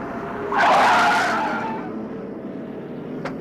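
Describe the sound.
A taxi car pulls up with its tires skidding: one loud, harsh screech lasting about a second, then a steady low engine rumble, with a brief sharp tick near the end.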